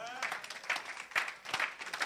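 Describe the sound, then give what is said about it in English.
Clapping from an audience during a sermon, soft and continuous, with a few sharper bursts of claps standing out from the steady patter. “Clap for the Lord.”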